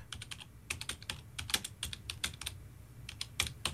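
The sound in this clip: Computer keyboard typing: many quick, crisp keystrokes in irregular bursts with short pauses between them, steady and fairly quiet, with no voices.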